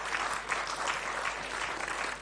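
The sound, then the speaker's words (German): Applause from an audience at a church service: dense, steady clapping that fills the whole clip at an even level, with no voices standing out. “Und ja, das ist ein Applaus wert.”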